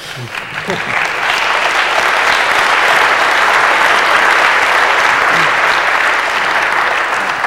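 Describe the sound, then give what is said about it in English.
Dense, steady audience applause closes a conference panel discussion, holding at an even, loud level for the whole stretch without pause. “Ask for your applause.”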